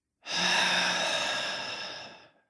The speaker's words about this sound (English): let's take a deep in breath way into the belly. And then slowly out.